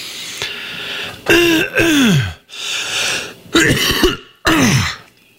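Loud, repeated harsh throat clearing: several rasping bursts with voiced grunting tones, some sliding downward in pitch, separated by brief pauses.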